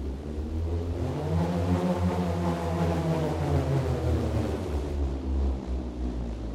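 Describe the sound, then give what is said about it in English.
Deep whirring roar of a bullroarer, a piece of wood on a string spun in circles through the air. A continuous loud drone climbs gradually in pitch, then sinks again toward the end. “it's a piece of wood on a string. It's one of the oldest instruments. But it sounds incredible. You spin it in a circular manner. And in doing so, it slices through the air, creating this sort of sound.”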